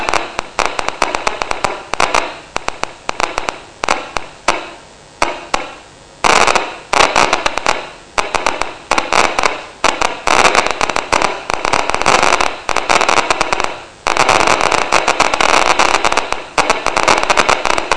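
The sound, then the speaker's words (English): Recorded electrical spikes from a firing neuron, played as sound: loud, dense crackling with many rapid sharp pops in irregular clusters, broken by a few brief pauses. “So there's a neuron that cares about that location. So same neuron firing all the way here in this corner.”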